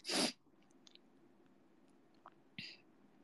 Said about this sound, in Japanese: くしゃみでそう。